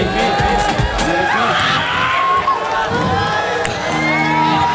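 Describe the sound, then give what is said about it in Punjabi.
Crowd cheering and whooping at a live Punjabi song performance, a loud, continuous wall of shouts with children's voices mixed in, sustained at the same level for the whole stretch. “ਤਾੜੀ ਤਾਂ ਮਾਰ ਦੋ ਮੇਰੇ ਵੀ ਪਿੱਛੇ ਵਾਲੇ ਤੁਸੀਂ ਮਾਰ ਦੋ ਵੀ ਆਈ ਪੀ”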